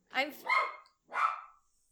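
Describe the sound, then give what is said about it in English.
Dog barking from a dog being looked after by dog sitters: a few sharp, fairly loud barks in quick succession, with no talk over them, then quiet. “the dog's barking. That's the other guest. That's our other guest.”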